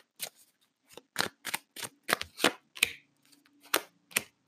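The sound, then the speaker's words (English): Tarot cards are shuffled and pulled from the deck in a series of crisp, papery snaps and slaps separated by short pauses, each sound quick and fairly quiet, with no voices. “All right, finally. Okay, I pulled two cards.”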